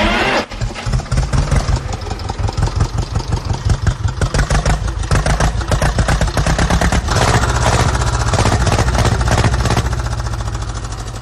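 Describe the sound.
A vintage motorcycle engine with the gear in neutral fires up on the first try, then settles into a loud, steady idle of rapid, rhythmic firing pulses.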